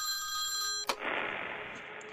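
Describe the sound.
A telephone rings with steady electronic tones, then a sharp click as it is picked up, followed by a low hiss on the open line.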